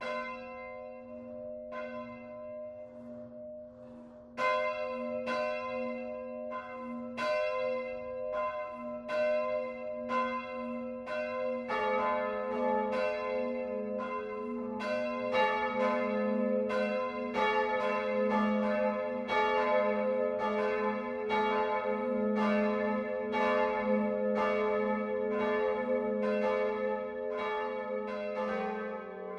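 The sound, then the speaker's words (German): Noon bells of the Catholic parish church Mariä Himmelfahrt in Landau an der Isar, Lower Bavaria: a single bell tolls slowly, then more bells join into a full, dense peal of overlapping strikes over a lingering hum. “Das Mittagsläuten kommt heute von der katholischen Stadtpfarrkirche Marie Himmelfahrt im niederbayerischen Landau an der Isar.”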